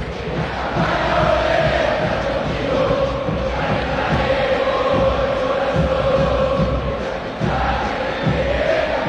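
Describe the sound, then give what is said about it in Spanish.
River Plate fans at the Monumental stadium before a match against Vélez, a loud, continuous crowd roar of chanting and shouting that holds steady throughout. “Habla el público millonario aquí en el Monumental.”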